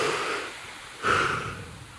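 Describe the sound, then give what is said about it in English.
A big deep breath drawn in during a workout countdown between rounds: a soft breathy rush of air that swells suddenly midway and then slowly fades away. “Big deep breath.”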